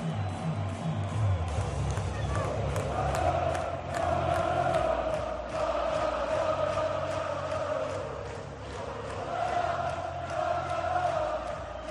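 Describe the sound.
Osasuna football fans sing and chant together in the stands at El Sadar stadium on a cold night, at the end of a Copa del Rey quarter-final against Sevilla. The loud, steady crowd roar carries sustained sung tones that swell and ease throughout.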